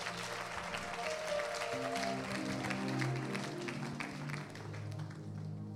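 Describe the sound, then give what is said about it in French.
An audience applauds during a church worship service, a dense, steady wash of clapping that holds at a fairly even level throughout, with sustained instrumental tones running underneath. “On acclame le Seigneur.”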